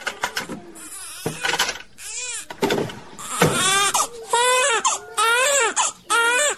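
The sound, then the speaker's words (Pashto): A baby cries loudly in a room, in a series of repeated wailing bursts with short breaks between them. “چېرته یې څه وایې دا دی دلته په کوټه کې ماشوم آراموم”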